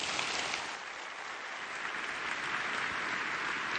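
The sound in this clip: Audience applause welcomes a speaker at a morning gathering: a dense, steady wash of clapping at an even level for about four seconds, with no voices over it.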